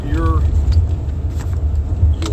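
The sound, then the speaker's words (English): A car driving in the rain gives a steady low engine and road rumble throughout, with a voice briefly talking over it near the start. “I'm pretty much driving in the rain.”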